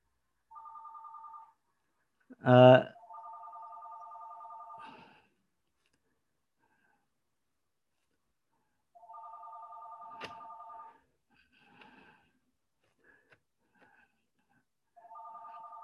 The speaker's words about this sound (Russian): это телефон там звонит